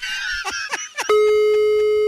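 A telephone call being dialled: after a brief, busier harmonic opening, a loud, steady electronic ringing tone holds for about a second before cutting off.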